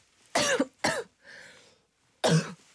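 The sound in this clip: Harsh human coughing: two quick, rough coughs close together, a soft breathy sound, then after a pause one more forceful cough.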